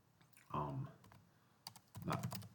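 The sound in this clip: Soft clicks from a computer keyboard as a statistics command is typed and Enter is pressed. The quiet keystrokes come in short clustered bursts, with faint voice-like murmurs between them.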